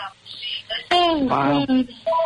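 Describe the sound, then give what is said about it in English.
A telephone rings during a phone call, its short tonal rings sounding over a speaking voice in a brief stretch. “I apologize for having a local phone call here that we never do.”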